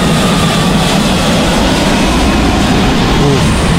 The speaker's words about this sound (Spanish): Ahí viene el avión otra vez.